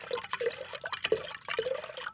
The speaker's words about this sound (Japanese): おなじみのトクトクトクは日本酒ではなく、日本酒独特の4号瓶の音なんですね。それでは正真正銘の福島の日本酒を注ぐ音をお聞きください。